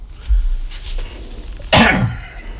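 A person with a scratchy throat clears it and then coughs: a softer throat-clearing rasp first, followed by one loud, harsh cough near the end.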